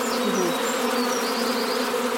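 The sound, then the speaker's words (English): Honeybees buzz around a hive while a group of them is being coaxed inside. Many wings make a dense, steady droning hum that stays constant throughout. No one speaks. “They're very clever bees. But, you know, it's slightly lower than it was. But once they all get the message... yeah. They will go in.”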